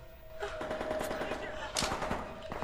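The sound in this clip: Machine-gun and rifle fire crackle in a film battle scene between American and Russian soldiers. Many rapid, sharp bursts run fairly faint and continuous, with a narrating voice over them.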